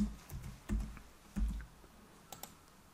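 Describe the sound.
Typing on a computer keyboard produces a few scattered key clicks and soft thumps, faint and irregular, with no talking.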